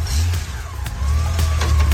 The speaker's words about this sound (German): Und da rauscht sie davon, die Harley. Manche stehen aber auch auf Goldwings. Hier fährt sie weg.